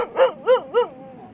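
Dogs barking in a video game: three evenly spaced, mid-pitched barks in quick succession, clear and fairly loud, each with a slightly arched, tonal quality, followed by quiet.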